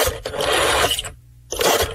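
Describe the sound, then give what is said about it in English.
A rotary dial telephone being dialed, played as a sound to guess in a game: two loud whirring, ratcheting bursts of the dial spinning back, separated by a short pause. “A dial phone. Correct. I'll accept it. Rotary phone.”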